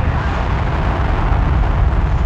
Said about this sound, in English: Liftoff of the Soyuz rocket transporting Mike Lopez Alegria, Mikhail Turin, and Anousheh Ansari to their microgravity home in space.